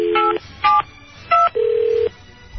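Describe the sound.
A telephone being dialed to call someone back: a few short, crisp touch-tone beeps, then a longer steady electronic tone, loud over a faint low hum.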